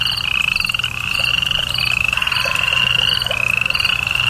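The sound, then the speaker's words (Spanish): Frogs croaking at night in a dense, steady chorus of rapid pulsing calls, with a continuous high, thin trilling running above them throughout. Loud and unbroken, with no voices. “Ahí se puso a oír los ruidos de la noche. El canto de las ranas y de los grillos.”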